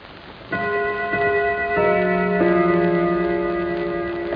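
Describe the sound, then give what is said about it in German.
German gong clock half-hour strike, played back from a record: a short sequence of ringing chime tones at different pitches, each entering cleanly and sustaining so the notes overlap into a lingering tonal chord. “Wir haben diese Gongschläge als Halbstundenschläge verwendet und führen sie denn jetzt von der Uhr auf die Schallplatte übertragen vor. Deutscher Gong, Halbstundenschlag.”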